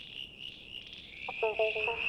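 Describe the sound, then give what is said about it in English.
A male southern brown tree frog calls in a quick series of faint pulsed croaks over a steady, high insect-like buzz that runs through the whole clip. “That's the sound of a male southern brown tree frog looking for a date.”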